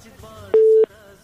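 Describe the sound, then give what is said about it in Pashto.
A telephone busy tone sounds once after a call is cut off: a single short, steady electronic beep at a fixed pitch, loud against faint background murmur. “له بده مرغه چې د همدرد صاحب اړیکه پرې شوله”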